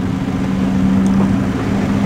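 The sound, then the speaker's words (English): A JCB Hydromax hydrogen-powered car setting a world land speed record gives off a steady, low engine hum with a constant droning tone over a faint hiss, fairly even in loudness throughout. “Now, it doesn't sound like much, but that's the sound of a world land speed record being set with a hydrogen-powered car.”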